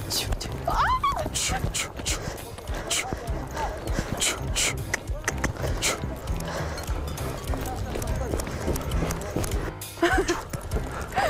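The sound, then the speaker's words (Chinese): Horse hooves clip-clop steadily as a rider, newly mounted with a horse trainer's help, tries to control the horse. The hoofbeats are many and loud, with people talking over them throughout. “接下来在驯马师的帮助下，骑上马背，要去尝试一下如何驾驭马儿了。”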